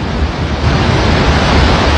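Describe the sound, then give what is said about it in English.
Thunderous roar of a wall of water shooting out of the Gardner Dam spillway, a loud, steady, dense rush of noise with no pauses or voices. “A thunderous roar as a wall of water shoots out of the Gardner Dam. Water is now flowing through the dam spillway and headed towards Saskatoon.”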